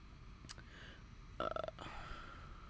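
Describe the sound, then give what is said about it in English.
Faint hiccups while recording: one short sharp catch, then a louder voiced gulping burst a moment later, with quiet breathing in between. “Excuse me again. I have some hiccups, which is a terrible time to have them while recording.”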